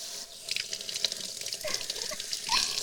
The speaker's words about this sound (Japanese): 流しますから動かないでくださいよ。